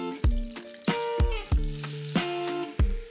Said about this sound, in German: Das heißt, wir haben jetzt hier Butter geschmolzen. Und dazu kommt jetzt die gleiche Menge an Mehl dazu.